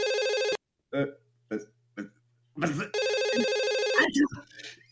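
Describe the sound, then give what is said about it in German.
A telephone rings in two steady electronic bursts, one short and one longer. A man speaks in German in short phrases between the rings, and more talk follows the second ring. “Wieso ruft man denn jetzt da an?”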